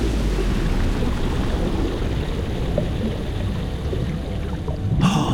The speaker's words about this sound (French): Et maintenant, on plonge.